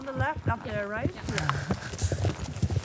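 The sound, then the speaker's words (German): Icelandic horse hooves clip-clopping in many irregular soft thuds, heard beneath a person talking throughout. “Mit Pass und Tölt beherrschen Islandpferde zwei Gangarten mehr als andere Rassen.”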